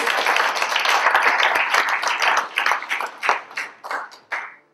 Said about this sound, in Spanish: Denle un aplauso al Señor porque no quiero dormir.